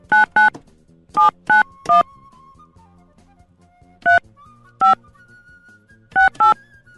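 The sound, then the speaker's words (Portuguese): Touch-tone keypad beeps sound as a telephone number is dialed: nine short tones in irregular bursts, several in quick pairs with pauses between, over faint background sound. “vou ligar pra ele”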